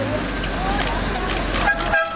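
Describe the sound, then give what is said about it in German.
Car horn honking from a silver Jaguar as a wedding party drives away from the church, sounding as steady tooting over road and traffic noise. “Im silbernen Jaguar fährt die Hochzeitsgesellschaft weiter.”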